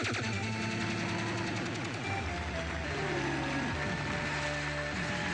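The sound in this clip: Rapid electronic firing and explosions from an arcade space shooter video game form a loud, continuous barrage of quick shots and blasts, mixed with steady electronic tones.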